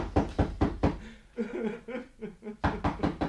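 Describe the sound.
Knocking on the door of a lone hut in the desert: two bursts of rapid, firm raps, with a voice sounding between them.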